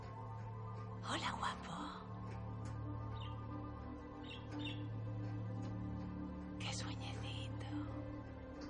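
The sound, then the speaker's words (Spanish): Three small, colourful caged birds chirping in a few brief, high twitters under a person speaking. “Hay tres pájaros pequeños de coloridas plumas que permanecen vivos. Una sonrisa se dibuja en su rostro. Uno se balancea en el columpio de la jaula.”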